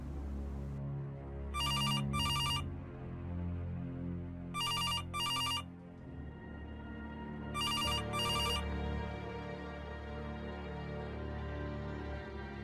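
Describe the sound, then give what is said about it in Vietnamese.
Telephone bell ringing in three evenly spaced double bursts, each a pair of bright, rapid trills, over a low sustained musical drone. “Vừa lúc ấy có tiếng chuông điện thoại reo vang. Trọng đợi chuông reo đến lần thứ ba, anh mới bước tới nghe. Nhưng đôi chân của anh hầu như không thể cất bước, nó như bị ai đó ghì kéo lại. Chuông đổ liên hồi.”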